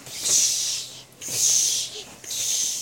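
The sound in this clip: A voice imitates a cat hissing, producing three long, breathy hisses in steady succession, each swelling and fading with short gaps between them.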